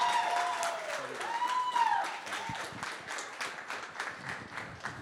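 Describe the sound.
Applause and cheering from a church audience standing to welcome a speaker to the stage: dense clapping with whoops early on, swelling briefly, then easing to a steadier level.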